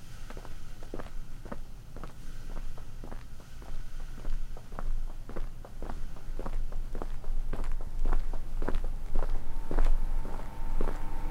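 Footsteps walking down a staircase: many firm, even steps at a steady, unhurried pace over a constant low background noise.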